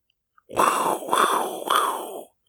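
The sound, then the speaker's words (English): A voice imitates fire breathing with three breathy, rasping exhalations in a row, each a rough whooshing gust with short breaks between them. “So let's fire breathe right into the gameplay.”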